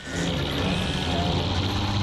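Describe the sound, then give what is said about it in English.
A lorry drives off at night, its engine a steady, loud low rumble with a broad noisy wash that holds evenly throughout. “As the light turns green and the lorry heads off into the night, Gromit”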